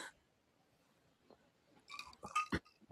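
Crisp crunching of cucumber dressed with salted kelp and sesame oil being chewed: a brief faint bite, then a quiet pause, then a rapid cluster of loud, wet crunches toward the end.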